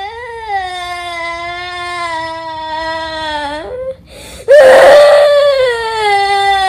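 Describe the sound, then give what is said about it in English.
A long, drawn-out whine holds a steady tonal pitch that sags slightly before a brief break, then returns louder and rougher with a burst of noise. “I'd like to hear that again, as a matter of fact. That's a nice whine.”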